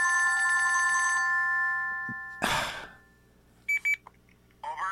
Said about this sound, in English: Can you believe it? It's the university again calling me.